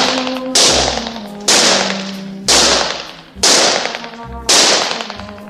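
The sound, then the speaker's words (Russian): Gunshots at German-soldier-shaped targets in a shooting gallery: five sharp, loud cracks at an even pace of roughly one per second, each ringing briefly before it fades. “Тир. Майор что-то говорит Жене на ухо. Женя стреляет по мишеням. Мишени в виде немецких солдат.”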